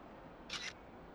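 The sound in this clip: A camera shutter fires once as a photo is taken, giving one quick, bright mechanical snap over a faint, steady background hiss.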